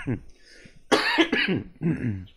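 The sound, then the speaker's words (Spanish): Coughing bursts out amid Spanish conversation, a harsh, noisy cough breaking into the flow of talk before voices continue. “también tose así, ¿oíste?”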